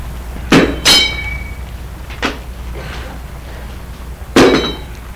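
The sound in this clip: An iron bar is dropped and clangs against the ground: a few sharp metallic impacts, two of them ringing out brightly, spread over several seconds with quieter knocks between.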